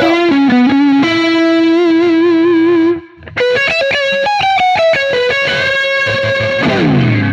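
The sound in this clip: A PRS electric guitar plays loud and heavily distorted, with chorus-like shimmer on held notes and bent phrases. It drops out briefly midway, then returns with a busier run of quick notes that rings out at the end.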